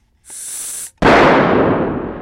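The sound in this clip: An angel food cake bursting after being inflated with a bicycle pump: a high steady hiss of air, a brief pause, then a loud bang that trails off into a fading rush.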